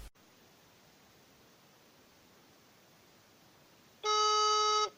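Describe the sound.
Phone ringing tone heard while calling a seller: steady faint line hiss for about four seconds, then one loud, buzzy, harmonically rich tone that lasts just under a second at the end.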